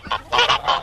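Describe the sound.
Turkey calls in a quick run of four short, nasal, honking notes, loud and alone.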